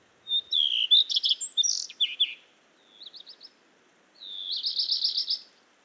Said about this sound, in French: Le rouge-queue à front blanc, arrivé il y a à peine une semaine, est en premier plan. Il fait encore nuit et il chante près du lampadaire sa petite phrase enjouée.